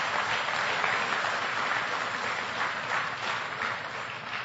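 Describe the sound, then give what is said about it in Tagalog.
A church audience applauds in praise of the Lord with dense, steady clapping that holds at an even, fairly loud level for the whole stretch, with no voices standing out. “Amen po ba mga kapatid? Palakpakan natin ang Panginoon.”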